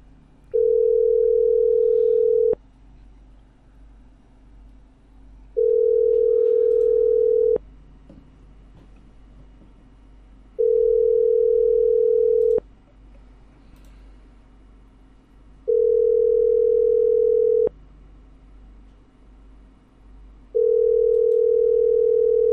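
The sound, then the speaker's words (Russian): A telephone ringback tone plays while a call is placed: five long, steady beeps of about two seconds each, separated by gaps of about three seconds, over faint background noise. “Так, я звоню.”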